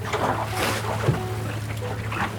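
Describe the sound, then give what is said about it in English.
A boat cruises along at 5.5 knots as the wind picks up, giving a steady low engine-like hum under a continuous rushing wash of water and wind, moderately loud and even, with no voices. “And with that, the wind's coming up again. You know, the boat's starting to come to life. Cruising along at 5.5 knots here.”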